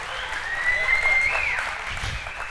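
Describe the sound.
A church audience claps during a worship service, the applause dense and steady throughout, with no distinct pauses.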